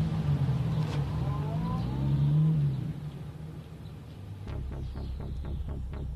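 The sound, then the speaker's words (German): A convertible car driving off, its engine a steady low rumble that swells and then eases, with a run of sharp rhythmic clicks or pulses joining in the final seconds. “Jetzt fährt er mit einem Cabrio davon.”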